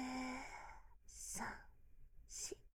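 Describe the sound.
Breath drawn in during a guided breathing exercise: after a voice speaks briefly, two airy, breathy inhalations follow, separated by a short pause.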